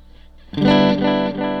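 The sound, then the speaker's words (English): A single note rings out through an echo effects unit. It starts with a sharp attack and sustains with rich harmonics, swelling slightly near the end. “The coolest thing I think are the repeats. And you could change the intensity of the echo up a bunch.”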